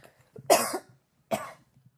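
Two separate coughs from a person with pollen allergies during South Carolina's blooming season: a strong, rough first cough followed by a slightly shorter second one, alone against a quiet background.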